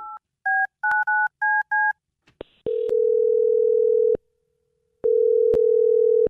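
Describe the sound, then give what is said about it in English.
Telephone keypad tones as a call is dialed: a quick series of short, clipped beeps, then a click and a steady ringing tone that stops, pauses and starts again, with no voices. “I'm going to dial this dude right now and see why he's not calling you back, okay?”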